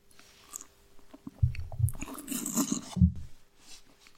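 Wet mouth sounds of a blend of two wines being tasted, with a few low, soft bursts and a longer swishing stretch in the middle, alone without talk.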